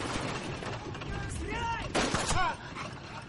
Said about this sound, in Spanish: Un prisionero dispara oculto tras él.